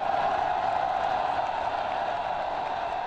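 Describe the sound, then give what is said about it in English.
Dense crowd roar from tens of thousands of pro-democracy demonstrators on the fifth day of protests in Hong Kong, a loud, steady, unbroken wash of massed voices with no distinct words. “That's the sound of the fifth day of protests in Hong Kong, where crowds of tens of thousands of pro-democracy demonstrators are demanding electoral reforms and more autonomy for Hong Kong.”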